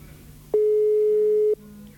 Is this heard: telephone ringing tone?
yes